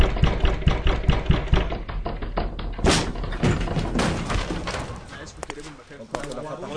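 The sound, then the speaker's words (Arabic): Heavy thuds of a door being broken down, a fast series of repeated blows followed by a sustained burst of louder, rougher noise. “انت مين ادالك الحق انك تكسر الباب وتدخل مكان ملك اليوسف الرامي؟”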